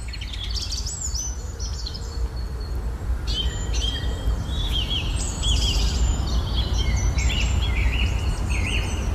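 Morning birdsong along a lane in a Hague neighbourhood: many bright, high chirps and short trills from several birds over a steady low background rumble.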